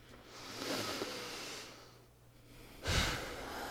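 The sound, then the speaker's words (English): A deep breath, heard as two soft, broad, breathy swells with a quiet pause between them, faint and with no talking. “right now, take a deep breath.”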